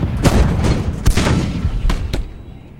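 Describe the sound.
Cannons fire in a battle, with several heavy booms in irregular succession over a rumbling background that fades toward the end.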